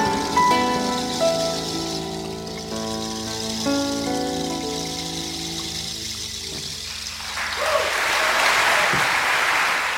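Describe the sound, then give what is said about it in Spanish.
Audience applause at the end of a sung performance, a dense burst of clapping that swells in as the music fades out. “Eso, eso, Guada, ahí terminó Guada, los aplausos y todo.”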